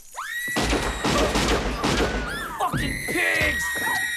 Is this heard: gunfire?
yes